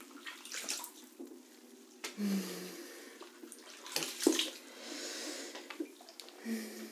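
Water runs to wash away soap, soft intermittent splashing and trickling with a few louder gushes, faint and without talk.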